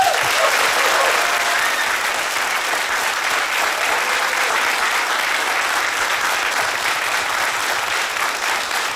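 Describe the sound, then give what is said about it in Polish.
Audience applause breaks out after a host calls for a big round of clapping to welcome performers at a live radio event, a dense, steady wash of hand claps that stays loud for the whole stretch with only a slight fade near the end. “Proszę o wielkie brawa.”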